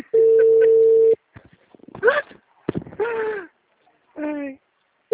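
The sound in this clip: A phone rings while a client is being called, heard as one steady mid-pitched ringback tone lasting about a second. Brief gliding voice sounds follow.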